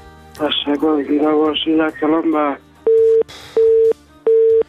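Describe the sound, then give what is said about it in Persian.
A dropped telephone call on a radio phone-in: a man's voice cuts off and a busy tone follows as three steady, evenly spaced mid-pitched beeps with short silent gaps between them. “قطع شد، بازم کوشش کنن تماس بگیرن”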